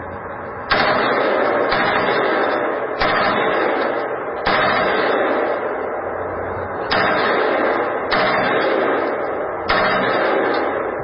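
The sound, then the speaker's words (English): Loud gunfire from a gun run on full auto: several abrupt bursts of rapid, roaring fire, each starting sharply and cut off before the next. “Start out with a couple single shots and run full auto. Now full auto.”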